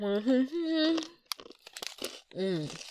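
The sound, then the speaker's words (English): Crinkling and tearing of a packet of peanuts being opened, a short burst of crisp crackles set between stretches of a person talking. “Okay, let me open the peanuts too.”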